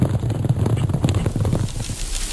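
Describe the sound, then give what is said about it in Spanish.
Horses gallop past, the forty riders of a folk tale, as a quick, rhythmic drumming of low hoof thuds that fades away toward the end. “Al cabo de unos minutos, 40 hombres a caballo pasaron a galope frente a Alí Babá”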